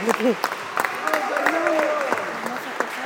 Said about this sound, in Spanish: Ahí está entonces el aplauso para nuestro último concursante en esta primera ronda, por favor.